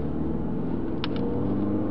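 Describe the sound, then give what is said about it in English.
Steady in-car road noise captured on a hidden recording device while a car drives across town in Las Vegas, Nevada: a continuous, loud, low rumble with a muffled, dull top and two brief faint ticks midway, with no talking. “You can hear the road noise on the device.”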